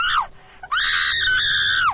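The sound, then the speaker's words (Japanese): A mother screams: a short, shrill shriek that drops away, a brief gap, then a long, piercing, high scream held steady before it falls sharply at the end. The screams are loud and alone. “A さんの母親、悲鳴を上げました。”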